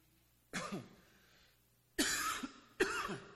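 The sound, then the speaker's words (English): A man coughs three times, harsh and throaty, as if clearing something stuck in his throat after eating popcorn: one long bout, then two quick bursts close together. “I don't know why I'm coughing like this.”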